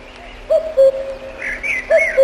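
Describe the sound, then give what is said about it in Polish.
A common cuckoo calls twice, each call a falling two-note hoot, clear and fairly loud, with brief higher chirps from other birds between the calls. “Lepiej nic nie mówić, tylko wsłuchiwać się w odgłosy przyrody. O, kuka, kukułka.”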